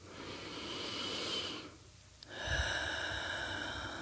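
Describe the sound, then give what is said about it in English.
A slow, deep breath drawn in through the nose then released through the mouth: a long airy inhale, a brief quiet pause, then a breathy exhale with a soft low rumble, no talk. “Let's take a couple of deep breaths. In through the nose and out through the mouth.”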